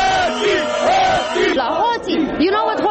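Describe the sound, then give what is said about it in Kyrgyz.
Romanian protesters chanting "thieves" at an anti-government demonstration: a loud crowd of many voices shouting in unison, with pitch swelling and falling through each repeated chant. “Демонстранттар эмне деп жатышат? Билесизби? Алар уурулар. Уурулар деп жатышат.”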